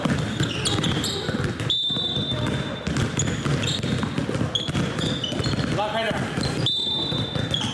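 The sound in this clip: Children at a basketball summer camp play on a mountain sports ground, the ball bouncing repeatedly in quick, uneven rhythm while voices talk over the steady thud of dribbling.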